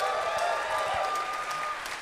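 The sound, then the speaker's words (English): Audience applause at a live show in Chicago, a continuous wash of many hands clapping that stays fairly faint and even, easing slightly toward the end. “We always love playing Chicago. Give yourselves a round of applause.”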